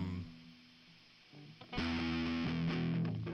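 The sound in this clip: Distorted electric guitar with an effects unit: a quiet, sustained note fades, then loud, crunchy chords strike from midway, with a few strums ringing on with a buzzing, saturated tone.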